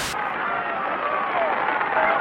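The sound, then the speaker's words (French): A crowd cheers and applauds along the roadside as Raymond Poulidor climbs the final metres of a cycling race, a steady, dense roar of clapping and shouting with a thin, band-limited archival tone. “Ces applaudissements se suffisent à eux-mêmes, et c'est au milieu de cette folle ambiance que je vais vous laisser regarder les derniers mètres d'ascension de Raymond Poulidor.”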